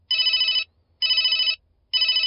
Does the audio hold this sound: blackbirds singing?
no